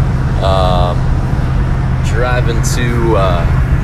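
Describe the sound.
Steady low engine and road hum inside a car driving to Fergus Falls, a constant drone with a voice talking over it.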